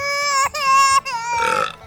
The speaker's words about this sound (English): Oh, that's why the baby's crying, because he belched in his face.